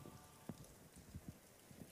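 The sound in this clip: Rain falling on the rooftop of the cathedral in Milan: a faint, steady patter with a few sharper drops scattered through.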